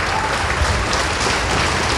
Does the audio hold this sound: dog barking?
no